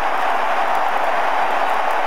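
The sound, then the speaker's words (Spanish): Cape Verdean crowd erupting at a football match against Uruguay in stoppage time: a loud, sustained roar of many voices that holds steady without a break. “Y así explota el público caboverdiano.”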